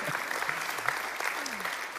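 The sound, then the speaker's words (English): Applause rises from a church audience welcoming a pastor back at a Sunday morning service, an even, continuous patter of many hands clapping. “So why don't we give Pastor Gary a big hand and welcome him back to Sunday Morning Platform.”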